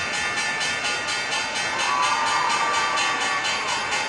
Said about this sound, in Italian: era un po' che non vi facevo sentire in apertura la campanella di chiusura di Wall Street